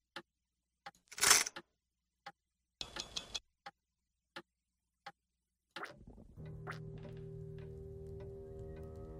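A clock mechanism in a video game makes sparse, separate ticks and clicks, broken by a couple of louder rattling mechanical bursts. About two-thirds through, a steady tonal hum sets in under the continuing clicks.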